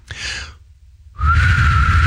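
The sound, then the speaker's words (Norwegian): A failed attempt at whistling that produces only blown air: a short breathy puff, a pause, then a longer, louder hiss of breath carrying the faintest hint of a tone. “dette det beste forsøket jeg har på å prøve å plystre.”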